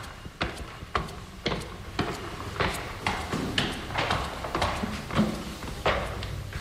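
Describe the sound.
Footsteps of people walking up to a museum's first floor: many hard, irregular steps and knocks in an uneven rhythm, moderately loud over a low background rumble.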